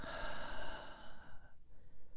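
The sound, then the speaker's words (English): A slow, deep human breath: a long, airy inhale of about a second and a half trails off into quieter breathy puffs, with no talking. “Now, take a breath for me. Deep.”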